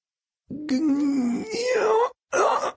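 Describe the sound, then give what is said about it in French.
A person groans under strain from excessive centrifugal force aboard a spacecraft: a long voiced moan that climbs in pitch, breaks off, then returns in a shorter, strained burst. “Gémis-je. Je voulais dire « Oh mon Dieu », mais je n'arrive même plus à respirer.”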